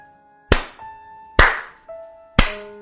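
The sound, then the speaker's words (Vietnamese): Hand clapping, three sharp, loud claps spaced slowly apart, each with a brief ringing tail, alone with no voices. “Tiếng vỗ tay bất chợt phát ra khiến Nam dừng lại.”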